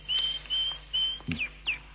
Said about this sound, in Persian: ببینمت بچه قناری ناخوش شدی. ولی دوتا چیک چیک مشکلیه.